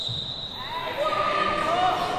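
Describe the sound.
A ball bounces on a suburban basketball court in Maryborough as a wheelchair basketball team trains, with voices heard over the play.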